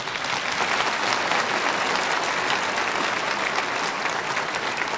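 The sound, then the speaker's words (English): Applause from an audience in a church, honoring a young woman of the audience who became Miss America; dense, loud clapping runs evenly through the whole stretch with no voices. “That's why I'm so proud to have you here today, so you can all applaud one of the young ladies of our church.”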